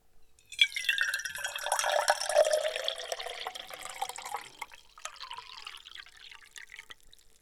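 Liquid pouring back into a tin: a steady splashing stream for several seconds that thins into a lighter, irregular trickle and a few drips near the end.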